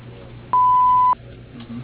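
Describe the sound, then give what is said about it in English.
An answering machine's single loud, steady electronic beep, about half a second long, signals the start of message recording. Faint background hiss surrounds it. “At the tone, please leave your name, message, and phone number”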